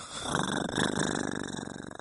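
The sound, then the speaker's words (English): A person imitates a cat's purr with a rough, throaty, rattling rumble that pulses rapidly and steadily for about two seconds. “Yeah, I purr at you.”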